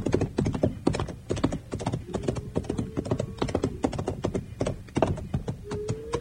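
Horse hooves clip-clopping in a Western drama scene, a loud, busy run of many hard knocking beats in an uneven but continuous rhythm, with no talk over them.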